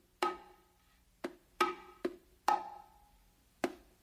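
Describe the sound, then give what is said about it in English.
A bongo plays a martillo pattern with a thumb tap and accented open tones: six sharp, dry strikes at uneven spacing, a few ringing out briefly with a higher open tone, heard alone. “he's going to tap it with his thumb and then use that motion to go to his left hand and do another accented open. All right? So it's going to sound like this.”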